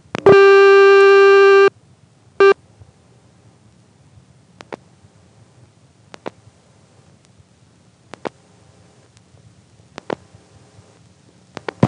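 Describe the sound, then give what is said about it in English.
A telephone line sounds its ring signal after the last digit 8 is dialed: a long steady tone burst, then a short one, followed by faint scattered clicks in near silence. “Let's try dialing the last digit 8.”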